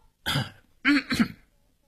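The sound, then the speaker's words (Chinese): A man clears his throat after his singing voice fails on notes pitched too high: three short, raspy, fairly loud bursts, the first longer and the last two close together, with no talk around them. “清了清喉咙又重新唱起来”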